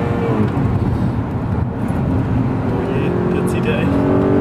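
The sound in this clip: A car engine accelerates while driving, making a loud, continuous drone with a heavy low rumble throughout.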